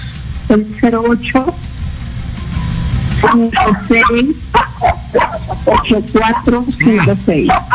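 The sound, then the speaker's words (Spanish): A small dog barks loudly in high, yappy bursts: a quick run of barks, a short pause, then many more in an uneven rhythm. “Se calle un ratito el perrito, por favor.”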